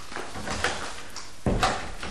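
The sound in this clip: A door is pulled shut in a home, giving one firm, low thud partway through, with a fainter knock earlier. The rest is quiet background.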